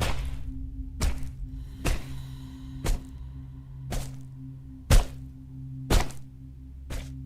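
A wooden log brings down heavy, repeated blows, each a sharp whack with a dull thud. The blows land at a steady pace of about one per second over a low constant hum.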